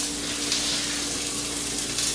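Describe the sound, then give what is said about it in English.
Butter sizzling in a hot pan gives a steady, even hiss that holds at the same level throughout, with no talk. “butter screaming. Oh, savory, savory, savory.”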